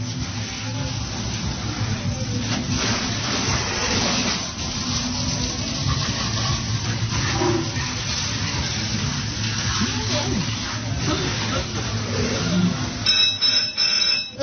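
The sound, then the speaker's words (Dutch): Water sprays from a hose at a fairground squirting game, soaking the targets in a continuous, loud rushing hiss with busy background noise underneath. “Even wachten hoor, ik ben aan het spuiten. Spuit ze allemaal onder. Ik spuit ze allemaal onder.”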